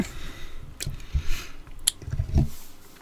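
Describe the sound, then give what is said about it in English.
Chewing a Luden's throat lozenge produces wet, squishy mouth sounds with a few sharper crunchy bites, fairly quiet and irregular, with no speech. “Let those ludens lubricate the throat. Mmm. Delicious.”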